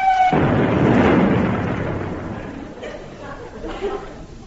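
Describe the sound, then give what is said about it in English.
Distant long-range artillery fire from practice rounds falling into the sea booms as a deep, loud rumble that swells and then slowly fades over several seconds, with fainter sounds near the end. “What was that? Oh, didn't I tell you? It's the long-range artillery school practicing. Don't worry, they all pass over the cap and fall into the sea.”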